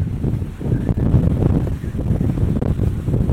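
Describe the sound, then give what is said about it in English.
Strong wind sweeping across the open Colorado plains buffets a binaural headphone microphone, producing a continuous deep rumbling roar with surging gusts and no pause throughout. “trying to capture sound of the place, but the wind hollers across the plains so strongly that it bleeds my microphone dry.”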